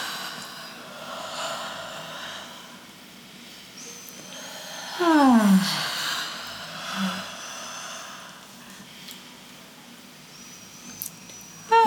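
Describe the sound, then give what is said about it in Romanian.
A yawn on the exhale after a breath in through the nose, its drawn-out voiced tone sliding downward in pitch, with faint breathing before and after. “Deci inspirăm pe nas și lăsăm cascatul să vină cu expir, așa, da?”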